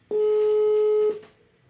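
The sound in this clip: A telephone line tone while placing a call, one steady electronic beep lasting about a second before fading into a quiet background.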